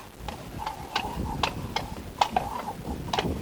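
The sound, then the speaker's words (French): Hooves of two horses clip-clop in a field in the early morning as riders arrive: a series of sharp, hollow knocks at a fairly even pace, moderately loud, with no voices. “Deux hommes qui descendent de cheval, attachent leur monture et viennent vers moi.”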